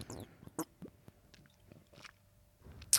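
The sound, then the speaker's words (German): Soft, wet gulping and swallowing of someone drinking a cold, oily marinade straight, with a few faint, scattered mouth sounds and one sharper burst near the end. “Oh, warte, ich trinke nochmal. Warte. Hört man das, wie ich die trinke, oder?”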